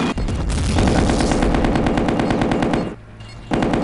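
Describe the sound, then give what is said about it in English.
Machine gun fire in a rapid, unbroken stream of loud shots for nearly three seconds. It breaks off briefly, then the burst resumes just before the end. “Machine gun.”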